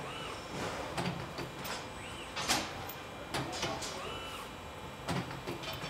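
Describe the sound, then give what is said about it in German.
An automatic machine bends and twists a long pipe, giving off quiet mechanical whirring with a few short motor sweeps and scattered clicks over a steady low hum. “Da kommt ein langes Rohr auf so eine Maschine. Auch wieder vollautomatisch heute natürlich. Und dieses lange Rohr wird hier automatisch gebogen. Aber nicht nur gebogen, sondern dabei auch gedreht.”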